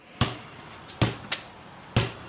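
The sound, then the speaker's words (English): Basketballs bouncing as 7th and 8th graders at Rutland Town School practise bounce passes: four sharp, hollow thuds at uneven intervals over quiet background noise. “7th and 8th graders at Rutland Town School are bounce passing and showing off their basketball moves”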